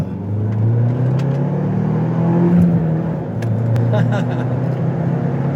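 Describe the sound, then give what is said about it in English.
A Ford Bronco's 2.3-liter turbocharged engine accelerates from second gear on an on-ramp, giving a steady, loud low drone that holds throughout while people talk over it. “tell us what you think of the 2.3-liter. Right, here we go, 2.3. Little turbo. Just going to go from second.”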